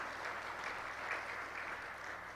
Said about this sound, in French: Est-ce qu'on peut applaudir?